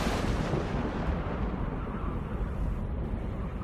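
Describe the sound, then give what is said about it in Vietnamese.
Rumbling thunder rolls through a storm, a dense, loud and continuous low roar with no distinct separate cracks, heard alone without any voices. “Tiếng sấm đì đùng, vang dội.”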